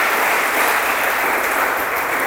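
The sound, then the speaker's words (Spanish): Applause from an audience at a church service: a dense, even wash of many hands clapping at steady loudness throughout, with no pauses. “Denle el aplauso a Jesús, por favor.”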